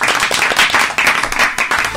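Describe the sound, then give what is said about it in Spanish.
Applause from a crowd at the close of an election-day special: dense, continuous clapping that stays loud and steady throughout, with no clear break. “Un aplauso para todos.”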